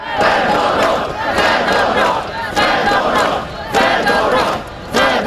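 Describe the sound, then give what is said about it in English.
Protesters near Ukraine's presidential palace in Kyiv chant the name of former defense minister Mykhailo Fedorov, a loud massed chant that repeats in regular rhythmic bursts of shouting voices. “That's the sound of protesters chanting the name of the former defense minister.”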